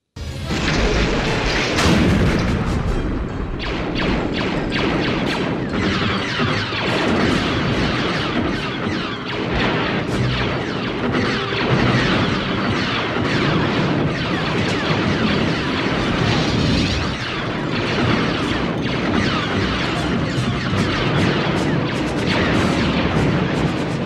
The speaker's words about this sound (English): YouTube clip number two is the blaster sounds, the sounds of the laser guns that are firing. Let's give a little listen to that.